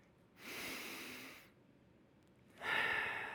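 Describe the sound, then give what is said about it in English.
A group breathes in and exhales together as a soft, airy rush of breath. Two long breath sounds are separated by a quiet pause, and the second one is stronger and brighter. “So what we're going to do three times is breathe in, then we're going to exhale”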